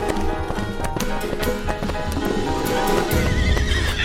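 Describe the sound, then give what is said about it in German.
Horses galloping head to head at full speed: rapid hoofbeats over a dense rumble, with a high whinny cutting through, loud and continuous throughout. “Botjani reitet neben ihr. Kopf an Kopf rasen sie dahin.”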